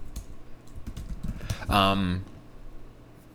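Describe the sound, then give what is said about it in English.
Light keystroke clicks from typing on a computer keyboard, a quick, uneven run of taps at a moderate level. “I'm gonna just type something in my computer over there.”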